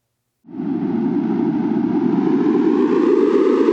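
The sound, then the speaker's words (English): Sonified ocean carbon outgassing data from a coastal array off New England in the Atlantic, where more released gas makes the sound louder and brighter: a steady, noisy buzzing drone begins after a short silence, holds an even level, and grows slightly brighter toward the end. “For this data nugget, outgassing will sound like this. The more gas that is released into the air, the more the sound will become louder and brighter.”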